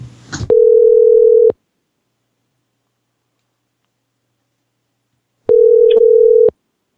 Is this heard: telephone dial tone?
yes

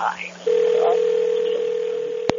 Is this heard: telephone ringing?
yes

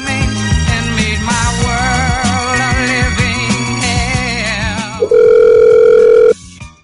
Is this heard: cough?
no

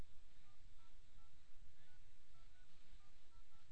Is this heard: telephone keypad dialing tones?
yes

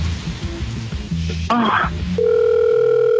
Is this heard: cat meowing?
no

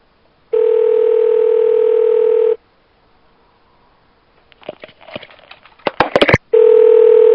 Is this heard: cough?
no

